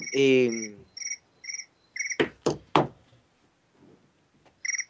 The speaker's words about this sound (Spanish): El grillo.